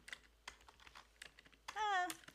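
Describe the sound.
Faint keystrokes on a computer keyboard while someone types a Bible verse search. A few scattered quiet clicks sound at uneven intervals.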